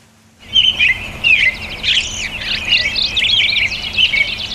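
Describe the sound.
Songbirds sing in hedges at the edge of farm fields, with high, bright chirps and trills overlapping in a steady, lively chorus that carries on throughout.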